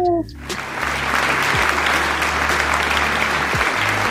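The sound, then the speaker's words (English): Audience applause as a guest is welcomed: loud, dense, continuous clapping that holds steady for about four seconds after a brief voice at the start. “Give her a hand.”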